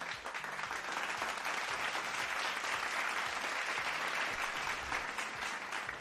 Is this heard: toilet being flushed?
no